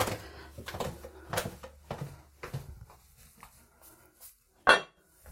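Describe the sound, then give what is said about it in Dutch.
A lid lifted off a baking mould and set aside while cooking in a kitchen: a few soft clinks and knocks, then one sharp, louder clatter near the end. “Dat deksel ga ik daar eventjes van wegleggen van die vorm, dat is toch niet nodig dat ik dat heb. Ik doe het even weg.”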